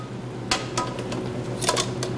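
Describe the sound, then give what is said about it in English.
A lid being set back on a cooking pot while an Italian dish simmers makes a few short metallic clicks and clinks over a steady low hum. “And what I'm going to do is go ahead and put the lid back on.”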